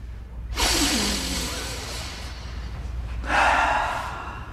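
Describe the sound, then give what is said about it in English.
A big deep breath, a long loud rush of air lasting a few seconds, followed by a second breathy rush. No one speaks. “why don't we all just take a big deep breath and just relax?”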